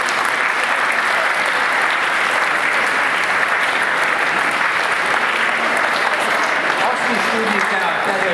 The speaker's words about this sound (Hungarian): És ezt meg lehet tapsolni, kérném szépen,